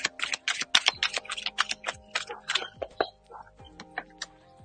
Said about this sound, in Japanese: もう少しカードを引いてみます。